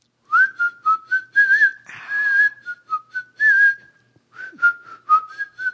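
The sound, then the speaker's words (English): A person whistles a tune: many short, clear notes in a quick, uneven rhythm, the pitch wavering between notes, with a breathy burst partway through and no talk. “whistle while you work. I can't whistle.”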